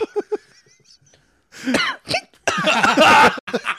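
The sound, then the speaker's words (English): Harsh coughing from someone who has just eaten extremely hot sauce: a few loud, rough bursts with one longer, dense coughing fit in the middle, following a quieter stretch of small sounds. “Pull your mic away if you're going to cough.”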